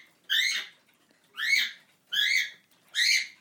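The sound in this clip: A pet bird gives four short, harsh, buzzy calls at an even pace, each about half a second long with rich upper harmonics. There are quiet gaps between calls and no talk.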